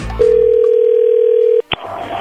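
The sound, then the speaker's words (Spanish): A telephone dial tone while calling someone: one steady, loud, unbroken tone lasting about a second and a half, cut off by a sharp click, then a faint hiss. “Muy bien, ya le estamos marcando”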